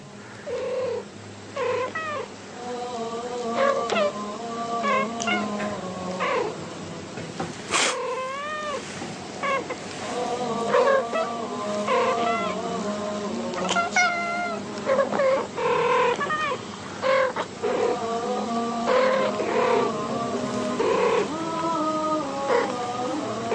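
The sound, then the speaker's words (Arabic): Two cats meow back and forth in a long, varied exchange of many drawn-out, wavering cries, some rising and falling in pitch, with no talking over them. “ادي القطتين.”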